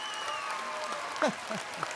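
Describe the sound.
An audience applauds steadily to welcome a stand-up comedian onto a talk show, with a few short whoops rising over the clapping.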